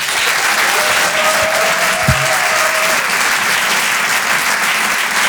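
Audience applause at the Rire et Chanson Comedy Club holds at a steady, dense level throughout. A single brief low thump occurs midway, with no voices.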